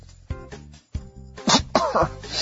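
A sneeze from allergies comes in a few short, forceful bursts of breath and nasal spray over a soft, steady tonal background.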